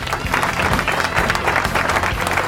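Applause from a crowd, a steady dense patter of many hands clapping throughout the whole short stretch, fairly loud and continuous with no talk over it.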